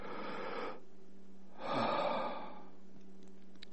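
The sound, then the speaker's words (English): A person draws in a deep, airy breath, pauses, then lets out a louder, rushing exhale. Soft breathing noise alone over a faint steady hum. “Take a breath.”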